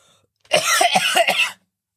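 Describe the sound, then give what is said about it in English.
Coughing: a single harsh burst of about a second, made of several rapid, chesty hacks run together, loud against an otherwise silent background. “Coughing up a lung there?”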